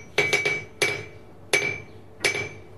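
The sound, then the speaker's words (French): Hammer striking iron on a blacksmith's anvil while flattening iron to size for horseshoes: three quick ringing blows, then three more spaced apart. Each metallic clang has a bright ring that fades quickly. “Alors, pour l'enclume, moi, il faut que je me recule avec le micro, parce que c'est très fort.”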